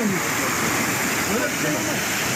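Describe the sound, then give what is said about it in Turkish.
Floodwater of the overflowing Yeşilırmak river rushes through Pazar district in Tokat, submerging nearby farmland and roads. A dense, steady, loud roar of churning water continues without a break, with muffled talk faintly beneath it. “Bu görüntülerde Tokat'tan, Pazar ilçesinden geçen Yeşilırmak taştı. Çevredeki tarım arazileri ve yollar su altında kaldı.”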